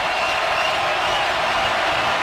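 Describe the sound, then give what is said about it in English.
Stadium crowd booing the 49ers during an NFL game against Seattle, a steady, dense roar that holds an even loudness from start to finish with no single voice standing out. “The crowd raining down again on these 49ers.”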